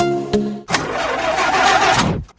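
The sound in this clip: An old, broken-down car's engine turns over: a short sputter, a brief gap, then a loud, rough, rattling run lasting over a second before abruptly cutting off.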